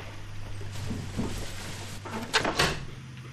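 A window being closed, heard as a few short knocking and scraping bursts near the end over a steady low hum.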